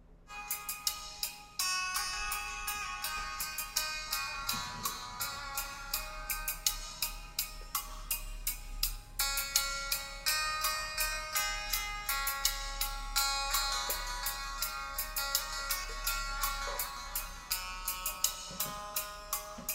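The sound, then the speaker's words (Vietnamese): Music plays through a pair of tweeters driven directly from a high-power amplifier: bright and treble-heavy, with crisp, steady percussive beats and ringing bell-like notes that run throughout without any voices. “Em sẽ test thử một đoạn cho anh em cùng nghe thử nhá. Đây là em test một đôi tép, em đánh trực tiếp từ gãy công suất lớn cho các bác nhá.”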